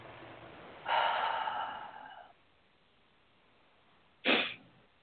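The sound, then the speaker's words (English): A deep breath during a guided relaxation exercise: a long, airy breath lasting over a second, then after a quiet pause a short, sharper puff of air. Both are soft, with no voices. “take a nice deep breath”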